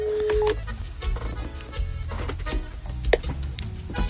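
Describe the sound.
Telephone dialing tones: a short steady tone opens, then many quick beeps follow in an uneven run over a busy background, with no talk.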